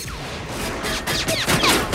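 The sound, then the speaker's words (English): Gunfire in a film shootout inside a plant, with bullets ricocheting off RoboCop's armor-plated body: several sharp bursts with whining ricochet tones that fall in pitch. “Bullets ricochet off his armor-plated body.”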